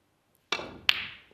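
A snooker cue strikes for a long red at the World Snooker Championship, giving two sharp, crisp clicks a little under half a second apart, each followed by a short fading ring.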